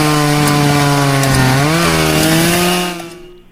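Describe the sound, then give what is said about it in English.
Chainsaw engine from tree removal work in a yard, a steady buzzing whine whose pitch dips and recovers, running continuously for about three seconds before fading out. “every time you're talking, it sounds like there's a machine on. Oh, it's chainsaws.”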